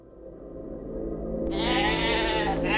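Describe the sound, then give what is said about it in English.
A sheep bleats from an agitated flock huddled near a paddock gate. One long, wavering, nasal bleat starts midway and holds loud to the end over a low background rumble. “the sheep were looking agitated and huddled near the gate”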